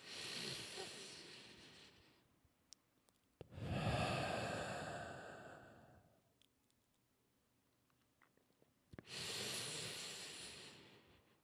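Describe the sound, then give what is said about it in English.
Deep, congested breaths from a person on the fourth day of antibiotics. Three long, loud, airy breaths with a raspy, hissing texture, separated by quieter pauses. “Big deep breath. One more. You're going to get my big, congested, fourth day of antibiotics, deep breath attempt”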